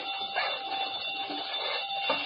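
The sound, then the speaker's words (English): A burglar alarm wired to a safe rings in a steady, continuous electric buzz with a bright, sustained tone that holds at an even loudness throughout, with no voices over it. “Safe connected with burglar alarm.”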